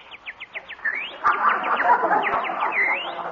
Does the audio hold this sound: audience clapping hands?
no

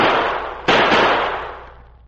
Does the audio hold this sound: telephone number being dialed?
no

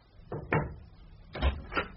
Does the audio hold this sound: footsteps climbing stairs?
no

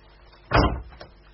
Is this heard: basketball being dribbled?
no

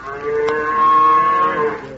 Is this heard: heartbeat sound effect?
no

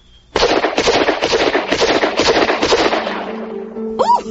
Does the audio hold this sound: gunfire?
yes

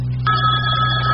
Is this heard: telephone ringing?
yes

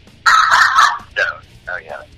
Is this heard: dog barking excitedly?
yes

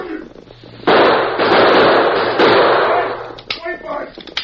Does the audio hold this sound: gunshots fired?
yes

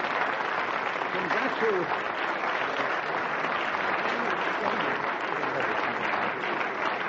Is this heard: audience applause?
yes

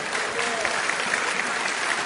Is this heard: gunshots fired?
no

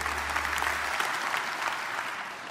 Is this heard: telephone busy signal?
no

